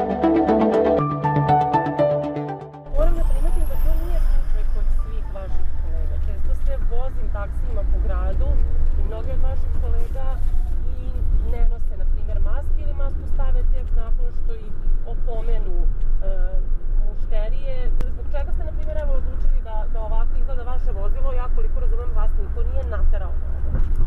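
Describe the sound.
Inside a taxi moving through city traffic, a steady low engine and road rumble fills the cabin throughout, with a voice talking continuously over it.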